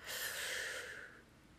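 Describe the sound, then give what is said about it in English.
A single deep breath drawn in during a guided breathing exercise: a long, soft, airy inhalation lasting about a second that gradually fades, with no talking over it. “Deep breath. We're going to do this twice, okay? So breathe in.”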